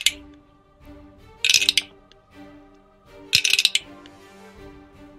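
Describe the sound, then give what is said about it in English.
Dice are rolled during a tabletop role-playing game, including a four-sided die: two short bursts of bright clattering taps, spaced about two seconds apart, over a low background hum. “Where's that dice? Not that one, that one.”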